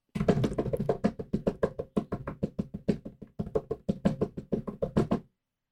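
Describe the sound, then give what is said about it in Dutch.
Rapid, evenly spaced tapping is beaten out as a drum-roll fanfare: many crisp knocks in a steady, driving rhythm for about five seconds, then it stops abruptly. “Om de tromrof te doen, zodat we de meest grote anticlimax ooit kunnen brengen. Tromgeroffel!”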